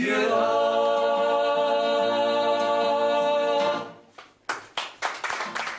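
Sustained tonal music holds and then fades away, and a few sharp hand claps break out as it ends, growing into a scattered round of applause.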